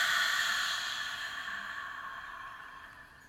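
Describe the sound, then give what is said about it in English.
A single long exhale releases a deep breath as a soft, airy rush that starts strongest and fades gradually to near silence. “Let's take a nice deep breath in and release it.”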